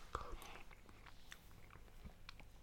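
Soft chewing of mashed potato from a ready meal with onion gravy, carrots and lingonberry jam: faint, wet, irregular mouth sounds with a few small clicks.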